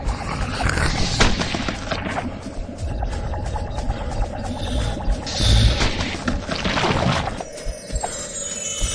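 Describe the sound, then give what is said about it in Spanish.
Weapon sound cue from a touchscreen zombie shooter game: a loud, dense, continuous noisy roar studded with sharp cracking bursts throughout, with no voices. “Muy bien, has encontrado un arma. Mientras escuches ese sonido, puedes disparar a los zombies tocando la pantalla con un dedo.”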